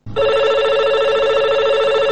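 A telephone rings with a steady, loud electronic trill that starts abruptly and holds without a break to the end. The tone is bright, buzzy and evenly pulsing, with no voices over it.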